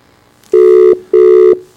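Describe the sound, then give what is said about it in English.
Telephone ringback tone on a call placed from a Johannesburg radio station, two loud, steady mid-pitched bursts of equal length separated by a short gap. “It's ringing. We're going to get there.”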